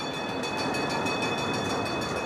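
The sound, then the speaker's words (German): Steady, loud rumble of a port railway locomotive running close along the harbour waterfront, with a faint high whine over the continuous rolling noise and no voices. “fährt die Lok dicht am Wasser entlang”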